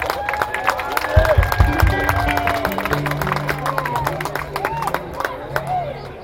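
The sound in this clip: Applause and scattered clapping from a live music audience welcoming a doghouse (upright) bass player as a band is introduced. The applause stays steady under voices, with a few low, sustained bass tones running through it.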